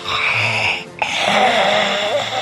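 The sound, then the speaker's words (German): A voice imitates heavy, mechanical breathing through an old canteen extractor hood: two long, loud, rasping breaths split by a brief pause, hissing over a low hum with a wheezy, moaning tone. “ich atme mal schwer.”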